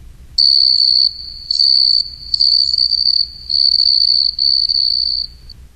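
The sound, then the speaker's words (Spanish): A large cricket chirps by rubbing its wings, giving a loud, shrill, high trill in about five bursts with short gaps between them. It sounds alone over a faint low hum. “¡Bienvenido!, le cantó un grillo grande frotando las alas.”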